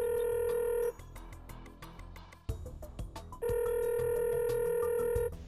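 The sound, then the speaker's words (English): A telephone is dialed and rings. A steady, loud ring tone sounds, breaks into a run of quick clicking dial beeps, and then the sustained ring tone returns. “Let's dial him up.”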